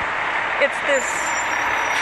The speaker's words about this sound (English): I really wish this bus would get the fuck past me.